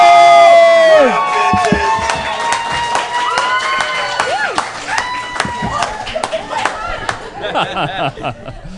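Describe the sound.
Cheering and applause from an audience welcoming the host of a live comedy show: loud, steady clapping mixed with whoops and raised voices that carries on throughout, settling slightly toward the end.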